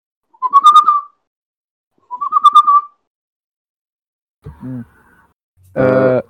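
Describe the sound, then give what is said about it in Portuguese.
A person whistles as a signal: two short, fairly loud whistles with a quick upward lilt that then holds level, separated by a pause, then a couple of brief low vocal sounds. “Eu tô lá no arbusto. Eu dou um assobio.”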